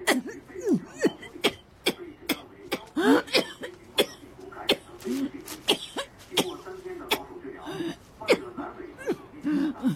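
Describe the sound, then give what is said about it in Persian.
Dry coughing: many short, sharp, harsh coughs in an irregular run with brief gaps between bursts, fairly loud and repeated across the whole stretch. “چقدر سرفه میکنین؟ اونم سرفه های خشک.”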